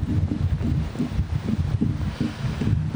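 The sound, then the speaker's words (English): Strong wind blows on a beach, buffeting the microphone with a continuous low, roaring rumble that rises and falls in uneven gusts. No voices are heard. “This beach mass. This wind is crazy.”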